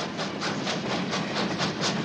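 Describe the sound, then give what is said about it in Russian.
Steam locomotive wheels rolling along railway rails across snowy ground, giving a fast, even, rhythmic clatter that repeats many times at a steady pace. “По заснеженной земле двумя черными лентами тянутся железнодорожные рельсы. По ним, быстро вращаясь, катятся колеса паровоза.”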